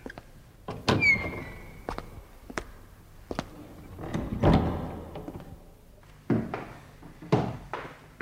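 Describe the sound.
A black door beside a shoe shop opens and shuts with several sharp thuds and clatters, separated by quieter gaps.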